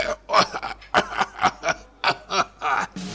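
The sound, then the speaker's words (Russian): A voice acts out a man choking and coughing at a wedding feast: many harsh, rapid bursts with short gaps between them, loud and alone. “Поперхнулся и кашляет.”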